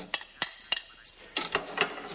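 Dishes and cutlery clatter as plates are washed in a kitchen sink, with a few sharp clinks and knocks at irregular intervals, fairly faint, and no voices.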